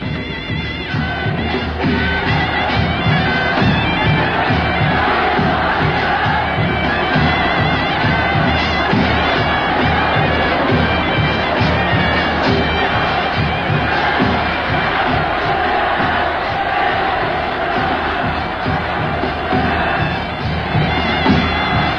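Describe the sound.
Crowd cheers and shouts a warm welcome as Chinese volunteer soldiers and Korean troops and civilians greet a visiting delegation from home; a dense, loud roar that holds steady throughout.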